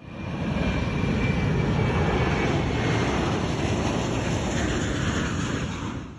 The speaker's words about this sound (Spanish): Tripulación, próximos al despegue.